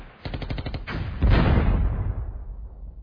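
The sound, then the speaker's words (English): Enemy artillery and gunfire in wartime: rapid bursts of machine-gun fire crackle at first, then a heavy, loud artillery boom lands and rumbles on before slowly fading out. “But, Sergeant, the enemy hasn't stopped firing their artillery.”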